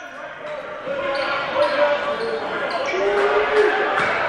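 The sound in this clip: Basketball dribbled on a court during a game, the ball striking the floor in a run of sharp, repeated bounces over a steady murmur of voices.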